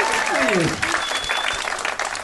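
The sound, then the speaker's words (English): An audience applauding a happy-birthday remark: full, steady applause with voices over the opening, easing slightly toward the end. “No, you say birthday, people applaud.”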